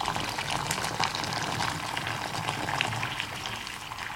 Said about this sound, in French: Alors là, je mets l'eau bouillante jusqu'à mi-hauteur des terrines.